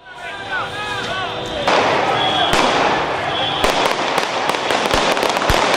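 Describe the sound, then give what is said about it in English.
Sharp bangs burst from a street protest in Caracas, Venezuela, where demonstrators against Nicolas Maduro's government face security forces amid burning barricades. Many loud cracks come in the second half over a constant roar of crowd noise. “Demonstrators faced off with the security forces in streets blocked by burning barricades in several cities. Escalating protests against the president, Nicolas Maduro's government. Here's the sound from Caracas.”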